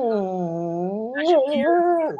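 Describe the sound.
A dog whimpering in one long, tonal whine that holds steady, then turns higher and wavers before cutting off abruptly.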